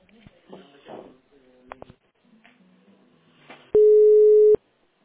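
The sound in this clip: A telephone line tone sounds while a call is being connected. One steady, mid-pitched beep follows faint, brief voices and then cuts off.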